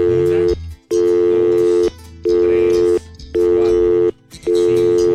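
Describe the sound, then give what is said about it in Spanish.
A telephone busy tone sounds on a call-in line with seven lines connected as someone dials in, a steady buzzing tone repeating in five even bursts with short silent gaps. “que están marcando. Hay alguien que está marcando ahorita.”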